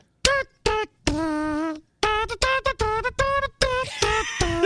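A person imitates a trumpet with their mouth, buzzing out a series of bright, brassy staccato notes with a few longer held tones between them.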